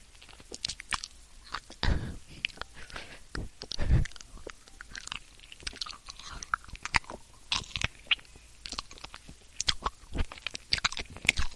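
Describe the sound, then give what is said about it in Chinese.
Eating cold rice porridge, with many wet, irregular chewing and slurping clicks in quick succession, some louder bursts standing out, and no talking. “这粥 都发凉了。公子，赶紧吃了吧。”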